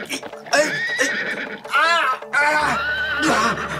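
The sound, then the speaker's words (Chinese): A wild horse that people are trying to tame neighs loudly, with a long wavering whinny in the middle and a shorter one near the end, among voices talking. “嘿，好马儿，让我来驯服你啊。”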